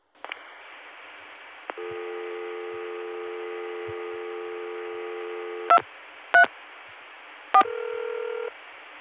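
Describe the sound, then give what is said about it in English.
Telephone dialing of a 3-digit extension: a faint steady dial tone, then three short DTMF digit beeps, followed by the start of a steady ringback tone. “I dialed a 3-digit extension. See that? The ring is 2 seconds long.”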